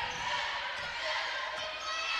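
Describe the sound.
A basketball is dribbled on a court during a women's basketball game, with a few soft, thumping bounces over a steady background hiss.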